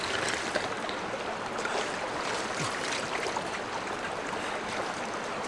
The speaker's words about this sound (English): The man drinks from the river on his knees, feeding it into his mouth with cupped hands, then splashing it over his face.